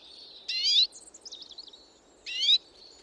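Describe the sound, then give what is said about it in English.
Redpoll call: two high, buzzy rising notes a couple of seconds apart, with a quick run of short twittering notes between them, heard alone over faint low background hiss. “Here then is a redpoll call”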